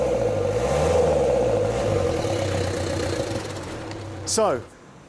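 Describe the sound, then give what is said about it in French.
Car engine with a leaking turbo, revved once with the accelerator to test the turbo: a steady mid-pitched running drone under a voice, then a short rising whine near the end before it cuts off. “On va voir si ce turbo fonctionne. J'enfile un gant ici, un coup d'accélérateur.”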